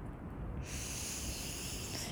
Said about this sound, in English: let's take a big inhale together.